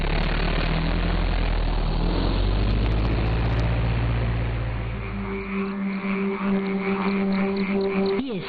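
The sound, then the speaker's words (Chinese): A car engine starts and drives off with a loud, low rumble that fades after about five seconds, leaving quieter steady tones behind. “哎，师傅，上车吧。 哎，走，开车。”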